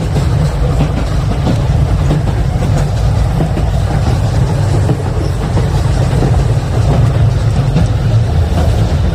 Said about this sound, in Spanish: Hoy nos hemos subido a un tren.